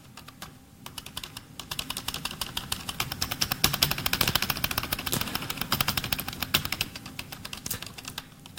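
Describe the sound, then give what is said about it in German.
Rapid typing on a computer keyboard while entering commands into a text adventure game: many quick, crisp key clicks in a dense, uneven run that swells to its busiest in the middle. No one speaks. “Ich warte mal, ich müsste dafür einen Zahlenwert tippen. Wenn ich jetzt 1 tippe, dann laufe ich.”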